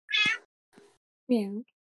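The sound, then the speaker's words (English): A cat meows: two clear, fairly loud meows with a softer, shorter one between them, heard alone with no talk. “Oh no, not the cat.”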